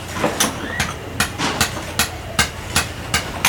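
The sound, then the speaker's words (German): Steady series of sharp pick strikes from archaeologists digging at a Dutch fort in Tainan, southern Taiwan, searching for a church; many crisp, evenly spaced impacts over low rumbling background noise, no voices. “Das waren Hacken von Archäologinnen und Archäologen, die in Tainan im Süden Taiwans an einem der niederländischen Forts arbeiten und dort auf der Suche sind nach, in dem Fall, einer Kirche”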